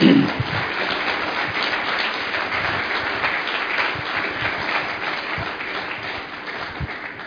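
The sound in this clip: Audience applause welcoming a guest on stage: steady, dense clapping from many hands that keeps going throughout, with some voices mixed in.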